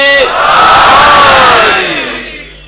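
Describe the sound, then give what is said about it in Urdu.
A crowd shouting the Naara-e-Haidari response calling on Ali in unison: one loud, sustained cry of many voices that swells quickly, holds, then trails off and fades. “مولا کو پکارتے ہیں نعرہ حیدری”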